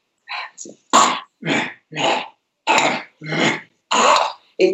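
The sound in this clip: A person's voice imitating a female ape's bark-like call that turns growly, giving several short, rough, guttural bursts in an uneven rhythm with brief gaps between them.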